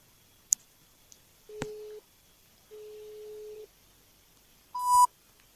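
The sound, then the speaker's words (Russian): Telephone busy tone after a call disconnects: two steady low tone bursts separated by a short gap, set between a few faint clicks and ending on a brief, higher beep. “Разъединение теперь какое-то.”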